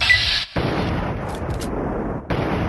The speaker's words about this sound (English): I'm gonna try to take out one of the guys from here with the rifle